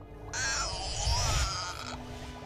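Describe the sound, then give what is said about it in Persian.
A magic syringe fills with liquid jade solution, heard as a bright, warbling, shimmering tone that swells in abruptly, holds for about a second and a half, then fades out. “روحان به سمت میز کارش میره، سرنگ جادوییش رو از محلول سنگ یشم پر میکنه.”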